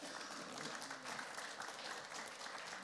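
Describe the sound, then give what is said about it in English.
Audience applause as someone is invited up to speak: an even, continuous patter of many hands clapping at moderate loudness, holding steady throughout. “Let's give Nathan a round of applause.”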